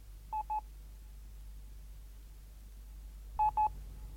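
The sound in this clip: Touch-tone telephone dialing to call the police: four short, clear electronic beeps in two quick pairs separated by a long pause, over a faint low hum.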